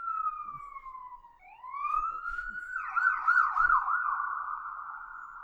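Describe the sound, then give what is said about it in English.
An emergency vehicle siren wails alone: the tone slowly falls, sweeps back up, warbles rapidly for a moment, then settles into a steady, moderately loud wail. “By the way, sorry about the sirens. Yeah. We're near sirens.”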